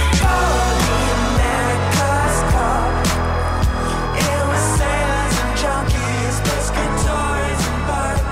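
Loud band music from a new single, with a steady pulsing beat, thick bass and layered melodic parts playing continuously throughout.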